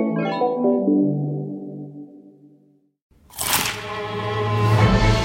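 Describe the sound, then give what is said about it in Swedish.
A sharp bite into a crispy fried chicken burger gives a loud crackling crunch that keeps rustling. It follows a fading chime-like tone and a brief moment of silence. “Upptäck det vackra ljudet av McCrispy & Company för endast 89 kronor. En riktigt krispig upplevelse.”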